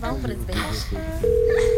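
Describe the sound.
Ringback tone of an outgoing phone call: a steady, buzzing tone that starts partway through and holds to the end, after a voice talks at the start.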